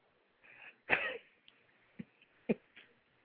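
Faint throat clearing: one rough, breathy burst followed by a couple of short, sharp coughs.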